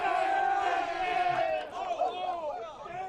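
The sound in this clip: Loud cheering and shouting from the BYU baseball dugout congratulating a player after a go-ahead hit in the top of the eighth, with many voices yelling together in a steady roar for about three seconds.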